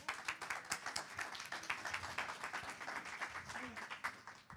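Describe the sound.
An audience applauds to welcome a speaker, with brisk, dense clapping that stays fairly even throughout and voices mixed into the crowd noise.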